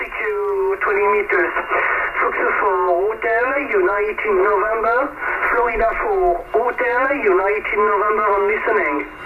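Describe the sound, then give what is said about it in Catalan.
Old radio transmission from about 47 years ago, a call coming in from France: a thin, narrow-band, tinny voice talks continuously through the set in steady phrases, with a faint low hum underneath. “Aquest era el so, aquest era el so de la ràdio en aquell moment”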